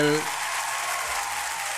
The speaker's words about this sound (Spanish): Le voy a dar el aplauso y a llamar